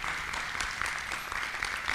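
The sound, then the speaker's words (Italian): Applause for a competition film and its production company: fairly faint, steady clapping that stays even throughout, with no voices above it. “Allora, un applauso a questo film e a questa casa di produzione.”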